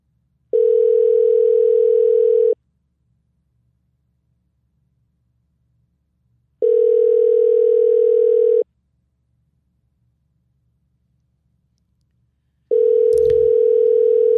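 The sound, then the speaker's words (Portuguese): Ringback tone of a phone call that goes unanswered: three long, steady, evenly spaced beeps of about two seconds each, separated by silence, with a sharp click during the last one. “Deu 6 chamadas e não atendeu, vai pro próximo participante.”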